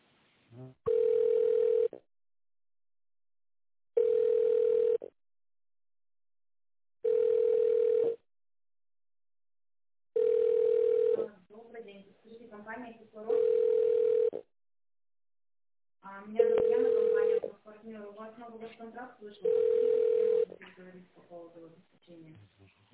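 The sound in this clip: A telephone ringback tone sounds while a call to a company office is being connected: a steady, mid-pitched tone repeats in seven even pulses about three seconds apart, and voices talk in the gaps between the later pulses.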